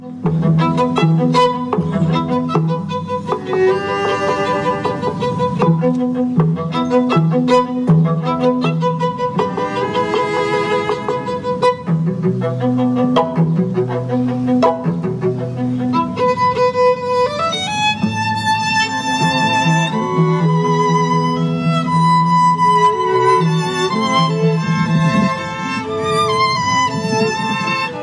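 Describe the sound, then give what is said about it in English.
Music from a quartet playing in Logan Square: sustained tonal lines with moving melodies carry on steadily for the whole stretch, with the texture shifting partway through and no talk over it. “The sound you just heard was a quartet in Logan Square last week”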